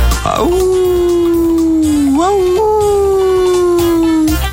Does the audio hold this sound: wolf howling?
yes